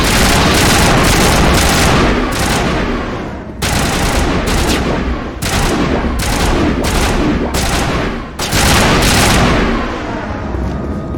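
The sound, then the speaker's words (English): Sustained heavy gunfire from shooting arachnid bugs in a video game: a dense, loud barrage of rapid shots and booms over about eleven seconds, broken only by a few brief dips. “I just got 3,200 space dollars for shooting a bug. One bug!”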